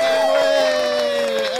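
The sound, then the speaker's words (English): An audience applauds and cheers as a guest is welcomed onto a stage. The crowd roar is loud and continuous, with sustained cheering voices ringing above it. “You get applause around here just for being you.”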